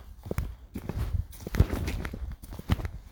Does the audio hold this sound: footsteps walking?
yes